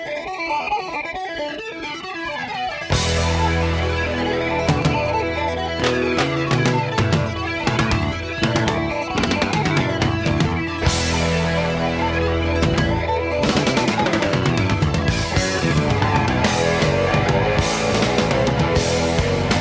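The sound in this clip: A rock song opens with a fast guitar riff: a busy, bright, effected guitar figure plays alone for about three seconds. Then the full band crashes in, loud and dense, and drives steadily on to the end.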